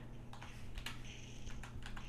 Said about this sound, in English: He's typing something.